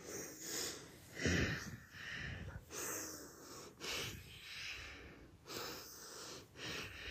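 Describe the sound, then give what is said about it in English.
Audible Ujjayi breathing during yoga practice, air drawn in and out through the nose against a slight throat constriction; a steady series of hissing, faintly wheezy inhales and exhales alone, with no talk. “So you're breathing in and out through your nose with a slight constriction at the back of your throat, which means you breathe in through your nose and then you breathe out through your nose. And it's audible.”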